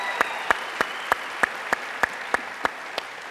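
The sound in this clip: An audience applauds to welcome a speaker's wife onto the stage: a steady wash of clapping with a regular beat of sharp, distinct claps running throughout, with no talk.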